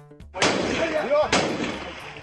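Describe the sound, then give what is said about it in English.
Police fire tear gas at opposition protesters in the streets of Nairobi. Two sharp, loud bangs about a second apart each trail off in a long, rough decay, with voices faintly underneath. “That's the sound of police firing off tear gas to try to break up the crowds.”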